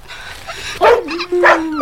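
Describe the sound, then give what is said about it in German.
A small dog yips and whimpers during a family quarrel over a litter of puppies: a few sharp, high yelps, then a thin, drawn-out whine. “Armes Hündchen.”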